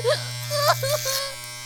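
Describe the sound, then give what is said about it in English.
Electric clippers shaving the hair off a person's head give a steady, low buzzing drone, with a voice heard over the hum. “Why are they cutting my fucking hair off? Why the fuck are they shaving my fucking head?”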